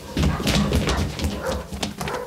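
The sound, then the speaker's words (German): Dogs barking and raging: rapid, overlapping barks and yips fill the stretch loudly and densely, with low thumping underneath. “Jetzt weiß ich, warum die Hunde so toben.”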